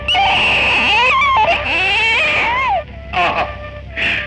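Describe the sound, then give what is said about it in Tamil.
A newborn baby cries in high, wavering wails: one long, sustained cry, then two shorter bursts after brief pauses. “என்ன இனிமையான குரல், அழுகைக்கே இவ்வளவு இனிமை”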